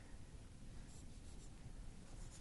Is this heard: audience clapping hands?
no